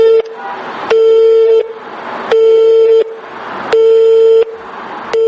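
A telephone busy signal sounds after a number is dialled. A steady mid-pitched tone pulses on and off in an even rhythm, with a brief beep at the start, then three full beeps and hissy noise filling the gaps.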